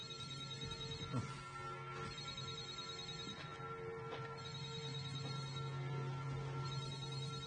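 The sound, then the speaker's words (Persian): A telephone rings with a repeating electronic ringtone made of bright, tonal bursts separated by short gaps. It is fairly faint and plays alone, with no talk over it. “ببخشید تلفنمه”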